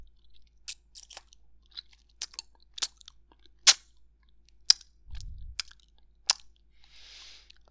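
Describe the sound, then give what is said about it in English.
Chewing a bite of thick food: many sharp, crisp crunches and wet bites come in an uneven rhythm, with short quiet gaps between them. A brief low thump occurs partway through, and no one talks. “Oh, this is such volume. It's so thick, too. Let me get a little taste of that.”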